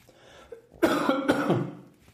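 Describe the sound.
A person with a scratchy throat coughs in a few rough, raspy bursts in quick succession, which then fade away. They follow a faint, breathy lead-in.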